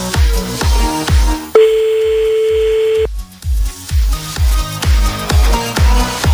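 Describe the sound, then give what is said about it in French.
A steady telephone tone sounds for about a second and a half as a call is placed, breaking into loud rhythmic music with a strong beat that resumes once the tone stops. “Allez hop, on appelle maintenant donc. Bonne chance Barca. Dès qu'il n'y a plus de musique en dessous de toi, tu dis allô.”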